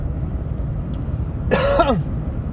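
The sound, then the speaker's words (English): A single short, raspy cough bursts out over a steady low rumble, then quickly trails off. “Sorry for coughing right in your ear.”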